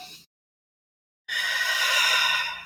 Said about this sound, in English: an intentional breath. When you can just kind of like, okay, I'm feeling my emotions regulate